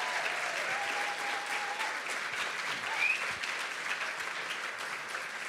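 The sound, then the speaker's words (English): Audience applause welcoming speakers to the stage at a storytelling event: dense, continuous clapping from many hands, holding a steady level throughout with no voices over it. “Why don't you put your hands together and welcome Mags, James and Maggie to the stage, who are going to share their story.”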